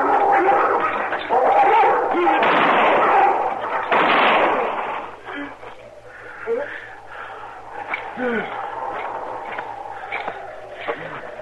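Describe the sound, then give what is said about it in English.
Gunfire from a six-gun and a rifle in a Western gunfight erupts as heavy, booming blasts that merge into a rough roar for a few seconds, then drops away as voices talk over faint background noise. “Shoot him. You got a rifle? Use it. Now, we should have brought ours. Stay back, Chester. I'm going over there with a six gun.”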